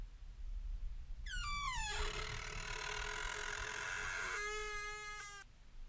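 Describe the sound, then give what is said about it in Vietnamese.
A door creaks slowly open with a long, drawn-out squeal, its pitch sliding down as it begins. The strained, harmonic groan holds steady for several seconds before cutting off, with a soft low rumble beneath. “Ngay lúc ấy, cánh cửa từ từ mở ra.”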